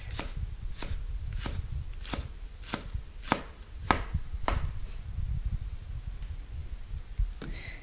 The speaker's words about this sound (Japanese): みじん切りはネギを回しながら縦に何箇所か切れ目を入れます。それから端からみじん切りにしていきます。